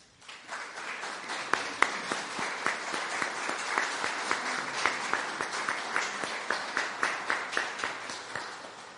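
An audience applauds at an award ceremony, a loud, dense round of clapping that settles into steady, rhythmic unison claps and keeps going without talk.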